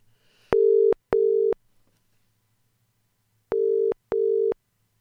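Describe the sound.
Telephone line tones while a call is placed: two pairs of steady, low, pure beeps, each pair two short tones close together, separated by a long silent gap, heard alone.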